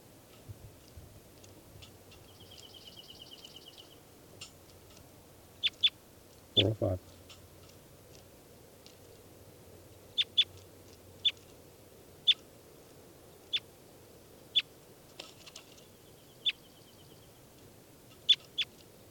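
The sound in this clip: Sharp, high chirping calls from a numbered study bird about to be handled, repeating many times at fairly regular intervals, with a brief buzzy trill early on and one low thump partway through.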